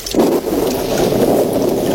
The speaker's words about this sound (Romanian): Ia, asta mai lipsea. A început să plouă.